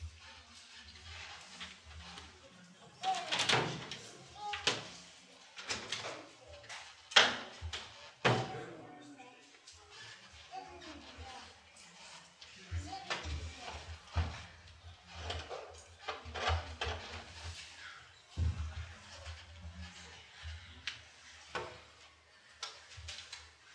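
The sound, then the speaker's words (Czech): A window is opened with a long series of knocks, clacks and latch rattles, scattered unevenly, with a few sharper, louder thumps standing out among quieter handling noises. “Přemýšlím, jestli bych otevřel ještě jedno okno tady možná, co myslíte?”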